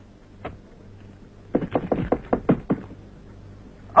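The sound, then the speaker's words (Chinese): Knocking on a door in a stage drama: a quick run of about seven sharp raps, preceded by a single isolated knock and followed by one louder thump, fairly faint overall. “我跟你说过多少次了，进来以前先要敲门。”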